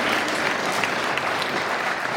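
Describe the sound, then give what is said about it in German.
An audience applauding during a church service, dense and steady clapping from many hands that holds at an even level for the whole moment, with no voices standing out. “Lass uns Jesus noch mal einen Applaus geben.”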